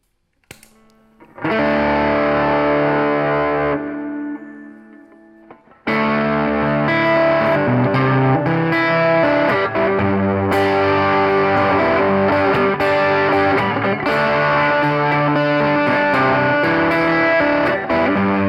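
An electric guitar plays through an external overdrive pedal into a Station One amplifier, giving a thick, distorted tone. One sustained chord rings and fades, then loud, continuous driven playing fills the rest, with no talk.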